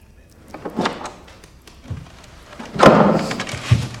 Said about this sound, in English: She looks towards the opening bedroom door.